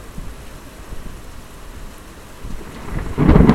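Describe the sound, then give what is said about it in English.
A thunderstorm with a steady hiss of rain, then a deep rumble of thunder that swells and grows loud toward the end. “I think a thunderstorm is a good way to express our anger and the creativity that comes from anger.”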